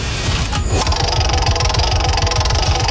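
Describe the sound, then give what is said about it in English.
A prize wheel spins with rapid, steady clicking as its pointer ticks past the pegs, a continuous even rhythm that runs throughout. “shall we just spin the wheel and find out what question it is?”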